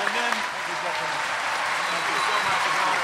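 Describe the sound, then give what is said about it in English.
Live audience applause for Sir Ben Kingsley, a continuous roar of many hands clapping at a steady level throughout, with talking voices heard beneath the clapping. “Can I please have a huge hand for Mr. Sir Ben Kingsley?”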